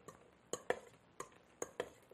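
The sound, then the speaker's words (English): Faint spoon-against-bowl scrapes and clicks as potatoes seasoned with salt, pepper and celery seed are stirred in a creamy sauce for a salad, with about five short, soft strokes spaced unevenly. “So some salt and pepper and celery seed onto our potatoes. and then we're just going to stir them around.”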